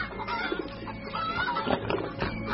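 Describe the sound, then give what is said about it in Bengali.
Hens cluck in agitated protest on a farm, a loud, continuous jumble of overlapping clucks and cackles that rise and fall in bursts. “শান্ত হও, শান্ত হও মুরগিরা। এ কথা শুনে মুরগিরা তীব্র প্রতিবাদ।”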